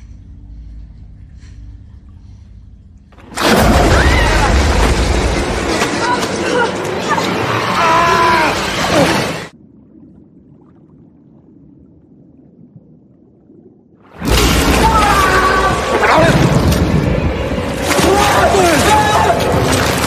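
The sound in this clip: Crocodile attack scene from a film: two loud bursts of churning, splashing commotion mixed with crowd voices, separated by several seconds of quieter low rumble.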